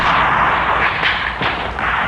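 Gunfire in a naval battle scene, with machine-gun fire aboard a ship heading for harbor: a dense, continuous roar of shots and blasts, with a few sharper bursts standing out, loud and steady throughout.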